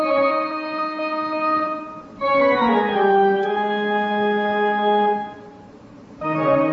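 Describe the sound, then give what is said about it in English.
A pipe organ concert simulated as heard on Mars from 1 metre away, with sustained, steady chords that shift between notes. The sound is fairly full, then dips quieter before a final chord. “Let's assume for now that we are on Mars and we're listening to this concert. If we are 1 meter away from the organ, it would sound like this.”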